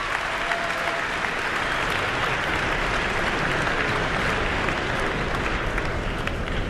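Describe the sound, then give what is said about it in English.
An audience at Carnegie Hall applauds steadily, calling a soloist back to center stage after her performance. The dense, even clapping continues without a break for the whole stretch. “the audience certainly appreciative and calling her back to center stage here at Carnegie Hall.”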